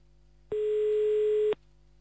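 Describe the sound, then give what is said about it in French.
Telephone ringing tone on an outgoing call to Jambes: one steady, mid-pitched ring burst of about a second that starts and stops abruptly, with faint line hiss before and after. “On appelle à Jambes. Ah, voilà, ça sonne.”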